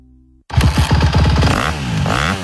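Honda motocross motorcycle engine revving: a loud, raspy two-wheeler roar bursts in after a brief quiet start, its pitch sweeping up and down through several throttle blips.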